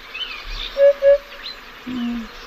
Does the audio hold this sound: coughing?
no